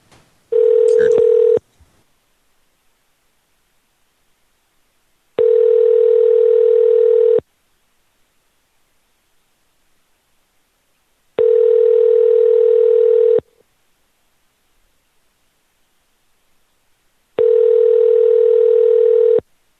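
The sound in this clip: Telephone ringing tone while placing a call: four steady buzzes of a single mid pitch, each about two seconds long, separated by silences of roughly four seconds.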